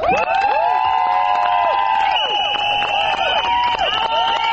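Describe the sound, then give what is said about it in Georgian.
Shrill whistles and shouting from a crowd of women protesting in front of parliament, with many overlapping whistle blasts and cries, loud and continuous throughout. “აი ასეთი შეძახილების და სასწვენების ხმის ფონზე მოითხოვდნენ პარლამენტის წინ შეკრებილი ქალების საკუთარი უფლებების დაცვას.”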